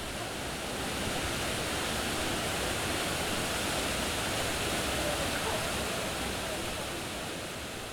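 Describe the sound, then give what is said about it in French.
Drinking water fountain beside the Clermont-Ferrand town hall gives a steady, even rush of running water that holds at a constant low level with no breaks. “C'est autre chose que ça. C'est la fontaine d'eau potable à côté de la mairie de Clermont-Ferrand.”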